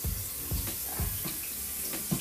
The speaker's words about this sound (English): a strainer, and then we just wash our rice.